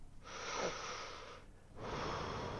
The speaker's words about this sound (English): Breathe in and out again.